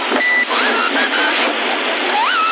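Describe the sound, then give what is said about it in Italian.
Roger beep from a Tornado 34S CB radio, received on 27.075 MHz: a brief, steady tone near the start and a wavering tone at the end, both riding over constant, loud radio static hiss. “Il Roger Beep? No, il Roger Beep è sempre, è un Tornado 34S, ha solo Roger Beep.”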